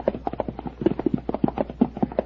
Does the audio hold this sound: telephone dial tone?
no